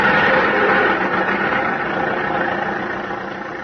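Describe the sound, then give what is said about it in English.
Engine of an old hand-cranked car running, a steady rough mid-to-low rumble with vibration that stays continuous and fades slightly toward the end, with no talk. “I wish it would start. I've heard of people breaking their arms cranking cars.”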